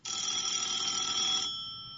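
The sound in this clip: A telephone rings once with a bright, high, sustained tone. After about a second and a half the ring cuts off, and a faint resonance fades away.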